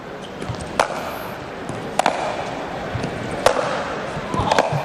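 A few sharp, bright clicks of a table tennis ball struck by the paddle on a serve in a competitive match, spaced irregularly over steady crowd murmur.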